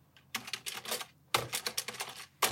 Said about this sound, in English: We'll type it in. Just type it in Discord. Okay. I'll type it in.